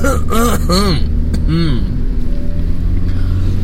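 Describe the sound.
Steady low rumble of a car driving on a road on the way to work, constant throughout, with a voice talking over it at the start.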